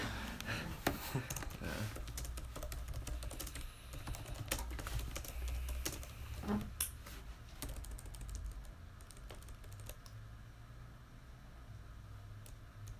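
Typing on a computer keyboard: many rapid, uneven keystrokes clatter steadily throughout with no talk.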